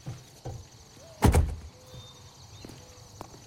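Car doors thud as people climb out of a stopped car: a few soft knocks and one loud slam near the middle, with faint light sounds between.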